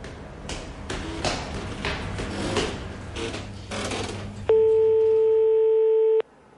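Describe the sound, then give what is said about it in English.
A steady electronic telephone line tone, held for under two seconds, as a line dials a security number. Crackling, clicking noise comes first, and the tone cuts off abruptly. “The Panthers are dialing the security line right now. Their call should be hitting the SenseNet system any second.”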